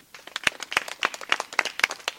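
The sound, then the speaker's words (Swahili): Scouts clapping for their teacher: scattered, uneven applause with many sharp hand claps overlapping at an irregular rhythm, fairly soft and without talk. “Asante sana mwalimu. Pigie makofi.”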